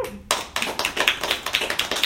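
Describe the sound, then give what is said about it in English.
Comedy audience clapping in a steady, rhythmic beat, many sharp claps repeating evenly after a brief quiet start. “Not enough of you are clapping.”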